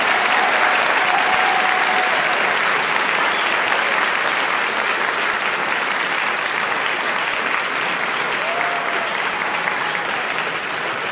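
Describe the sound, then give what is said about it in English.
Sustained applause from an audience honoring four debaters after a debate, a dense, even wash of clapping that stays loud and steady throughout with no voices over it. “ask all of you to show your appreciation for four debaters who took this into really interesting areas.”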